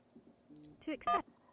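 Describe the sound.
A short electronic telephone tone signals an incoming call on a call-in show, with two brief tone bursts rising out of a low, quiet murmur.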